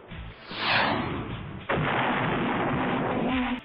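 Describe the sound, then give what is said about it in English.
A rocket is fired from a forearm launcher: a whooshing surge builds, then a sudden loud blast hits and turns into a sustained roaring rush that continues to the end. “How about I try one of these rockets from my forearm? Yeah, rockets! I'll shoot it at him!”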